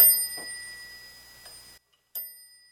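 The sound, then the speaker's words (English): A machine's bell rings with a bright, sustained metallic tone that then cuts off abruptly. After a short silence it strikes once more. The machine has a keyboard, an escapement and a smooth metal front panel. “Here's the bell.”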